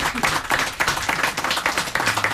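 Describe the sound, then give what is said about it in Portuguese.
Clapping from an audience at a fado performance, greeting a Portuguese guitar player; brisk, dense hand claps that pulse in short surges over a couple of seconds. “Também um aplauso para o Cláudio Lucas com a sua guitarra portuguesa.”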